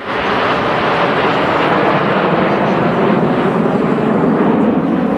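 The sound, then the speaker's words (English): Jets of the Snowbirds aerobatic team fly over the Kelowna airshow, held for Kelowna International Airport's 75th birthday. A loud, broad, steady roar fills the whole stretch without break or talk. “The unmistakable sound of the snowbirds filling the skies of Kelowna this afternoon.”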